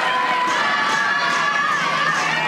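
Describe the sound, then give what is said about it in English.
A baseball stadium crowd cheers in a loud, continuous roar, with shouts and higher-pitched cries rising and falling through it. “If you're listening at home, you can hear this crowd.”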